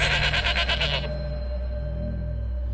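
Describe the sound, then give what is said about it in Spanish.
A goat bleats: a single quavering, pulsing bleat that cuts off after about a second, leaving a low steady hum. “escuchó un chivo quejándose, gritando. Volteó lentamente y en el piso estaba la cabeza cercenada del chivo.”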